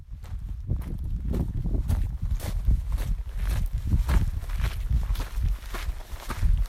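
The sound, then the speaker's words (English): Footsteps walking over ridges of piled-up, cooled lava rock, a steady run of many crunchy steps at a moderate, even pace, fairly loud and with no talk. “We are now walking through the lava fields.”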